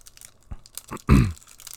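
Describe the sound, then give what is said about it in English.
A lychee-flavoured Kit Kat candy wrapper being torn open with a short, sharp, crinkly rip after a few faint plastic rustles. “Do some ASMR here. Pack opening.”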